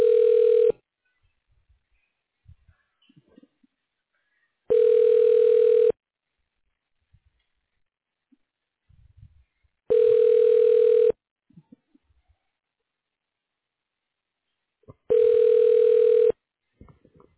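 A telephone ringback tone repeats as a call is transferred to voicemail: four even, steady buzzing rings of about a second each, separated by long quiet gaps with faint background noise.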